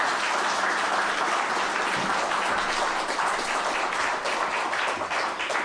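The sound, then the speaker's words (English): Applause fills a church singing service as the audience gives a singer a round of clapping. The clapping is dense and steady and holds an even loudness throughout, with no voices over it. “Give Miss Gita Lee a round of applause for her.”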